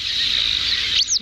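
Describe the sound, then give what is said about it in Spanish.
Thin, high-pitched call of a Montagu's harrier, a small grey raptor, a sustained chick-like peeping whine that ends in a brief, sharp sweep, alone over faint background noise. “Parece un pollito, sí. El aguilucho cenizo.”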